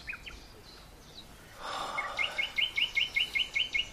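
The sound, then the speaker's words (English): A nightingale sings a rapid string of many high, bright, repeated chirps, faint and even in rhythm. A soft breathy sigh comes before the song. “The song of the nightingale. It brings me feelings I don't understand.”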